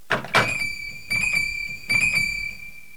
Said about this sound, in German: Da ist jemand an der Tür. Ich rufe gleich zurück.